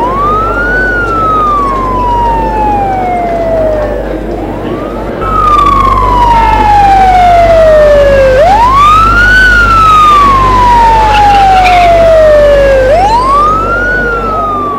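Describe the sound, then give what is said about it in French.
Loud ambulance siren wailing in slow cycles, each tone climbing quickly, then gliding down over several seconds, about four sweeps in all over a low steady engine rumble. “Quelques minutes plus tard, on entend le bruit de l'ambulance.”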